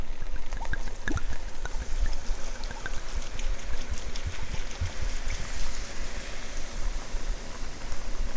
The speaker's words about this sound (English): And give that one more stir. And now we're in with the wine.